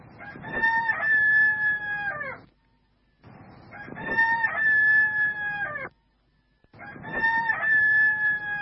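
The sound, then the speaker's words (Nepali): Rooster crowing from a clock, three loud, long crows, each cut off by a short silence, with nothing else heard between them. “घडीको भालेले पखेटा फटफटायो, छाती फर्कायो र घाँटी उचालेर पछाडितिर लगेर 3 कुखुरी कहाँ गरेर बास्यो।”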